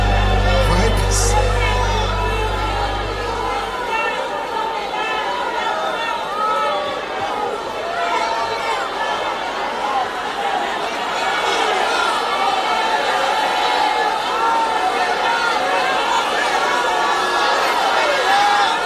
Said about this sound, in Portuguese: Esse sim é um barulho que tem que ser captado. Barulho de culto. Barulho de adorador no meio da rua dizendo que ele é grande, que ele é maravilhoso.